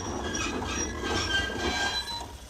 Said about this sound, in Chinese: 列车停下以后